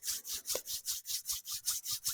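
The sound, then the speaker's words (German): Fingers and hands rub together in a fast, even back-and-forth rhythm of many brisk, faint, hissing strokes with no voices. “Auch langsam wieder ein bisschen bewegen, Finger lösen, gerne zusammenreiben die Finger, die Hände.”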